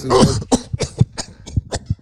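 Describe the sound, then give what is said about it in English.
A man's exaggerated fake cough: a rapid run of rough, throaty hacks and throat-clearing bursts, loud and alone, tapering into smaller coughs. “I'm doing that dramatic cough that men do when they're lying”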